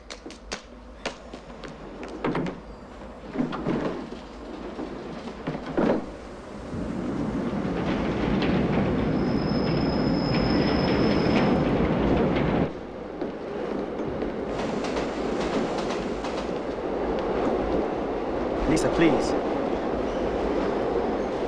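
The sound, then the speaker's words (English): A busy, graffiti-covered underground tube carriage in motion. Scattered clatter and knocks give way to a loud, steady rumbling roar with a thin high whine partway through, and the roar dips briefly before carrying on. “just catches the same graffiti-covered tube that Lisa has already boarded. Making his way through the busy carriage, he finally catches up with her”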